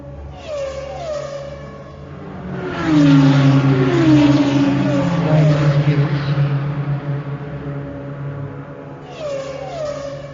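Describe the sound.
A race car engine accelerating hard on the longest straight of a circuit toward 280–290 km/h. It is a loud harmonic howl that climbs repeatedly in pitch, swells through the middle, eases off and rises again near the end.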